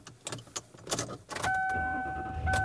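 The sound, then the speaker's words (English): Car sounds as a driver heads home: a run of clicks and jangling, then a steady electronic chime over a low engine hum. “And I am driving home for the second time today.”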